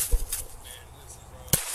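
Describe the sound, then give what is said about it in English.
Gunshots fired by police at a man holding a hatchet: two sharp, crisp cracks about a second and a half apart, fairly faint against a quiet background. “Oh my god. Headshot! 1033, shots fired.”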